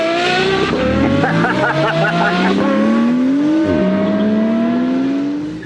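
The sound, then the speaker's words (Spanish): A voice imitates a Ferrari sports car engine revving: a continuous buzzing, rising drone with a sudden drop partway through, like a gear shift, then it climbs again before tailing off. “Aquí traigo mi Ferrari.”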